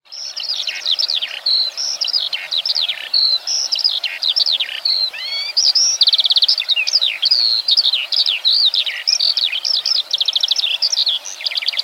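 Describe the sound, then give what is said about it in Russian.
A skylark sings in a continuous stream of high, rapid warbles and trills with no pauses, bright and fairly loud, and no other sound is heard. “Жаворонок.”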